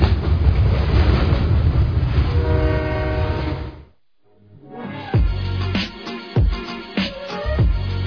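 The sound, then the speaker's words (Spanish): A Quito Metro train passes with a loud, sustained rumble and a blaring horn blast. After a brief lull, the sharp rhythmic clacks of wheels over rail joints follow. “El Metro de Quito está pasando.”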